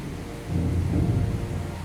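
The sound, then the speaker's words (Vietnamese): Heavy rain hisses steadily during a thunderstorm, and a deep thunder rumble swells in after a moment and holds under the downpour. No voices are heard. “Bây giờ mưa, các bạn có thể nghe tiếng mưa rồi, sấm sét cũng y ầm rồi.”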